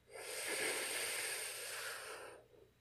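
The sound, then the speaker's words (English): One long, deep inhalation during a guided breathing exercise, a steady airy hiss that swells, holds for about two seconds, then tapers off, quiet and alone. “Go ahead and take another deep breath in.”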